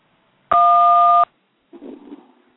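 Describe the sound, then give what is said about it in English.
A single telephone keypad tone for the digit 1 sounds as a steady two-note electronic beep lasting under a second and stands alone. A brief, faint, muffled sound follows after a short pause. “Press 1 if you need prayer this morning.”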